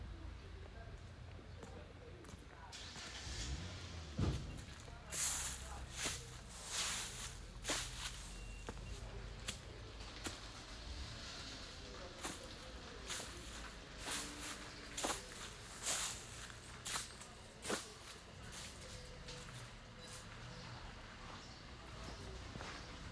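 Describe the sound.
Footsteps walk along a wall toward a road as faint, irregular scuffs and taps, many in a loose, uneven rhythm over a low background hush.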